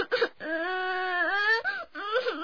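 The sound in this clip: A girl cries loudly in a long, sustained high wail that dips and wavers midway, with short sobbing bursts before and after it.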